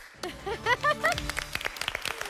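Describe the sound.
Voices sound in a quiz-show studio, then audience members start clapping early, with scattered sharp claps that continue to the end.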